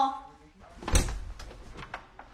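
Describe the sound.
A home's front door is opened with a single clunk and a short rattle, followed by light rustling. Voices are heard just before it.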